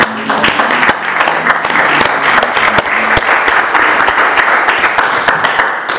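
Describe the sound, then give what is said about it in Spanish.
Loud audience applause at a book presentation, a sustained, dense patter of many hands with sharper single claps standing out, continuing unbroken for about six seconds. “Hay que aplaudirlo, ¿no?”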